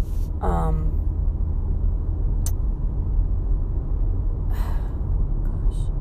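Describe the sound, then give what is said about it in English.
A car across the street gives a low, steady engine rumble that stays constant throughout. A short breathy vocal sound comes near the start. “this car across from me was being really weird”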